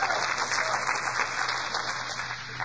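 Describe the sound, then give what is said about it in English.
Audience clapping hands during a church service: dense, steady applause that stays fairly even in loudness throughout, with no voices over it. “Give Jesus a hand clap.”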